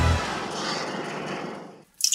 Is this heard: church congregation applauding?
no